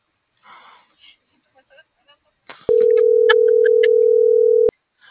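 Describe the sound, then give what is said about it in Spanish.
Telephone dialing and line tones: after a few seconds of talk, clicks lead into a steady, even tone of about two seconds, with a few short, higher dialing beeps sounding over it. “tengo que marcar.”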